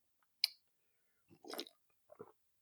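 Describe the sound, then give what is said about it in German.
Coffee is sipped: a few faint, isolated mouth noises, a sharp click, then a longer wet slurp and a short final gulp, all quiet and alone. “dementsprechend trinke ich jetzt erstmal einen Schluck Kaffee”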